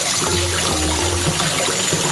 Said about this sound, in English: I'm in the hole. There's like water dripping.